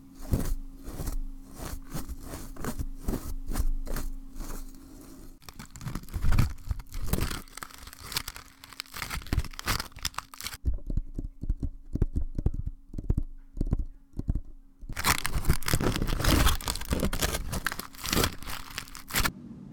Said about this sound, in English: It sounded like they were opening a bag of chips.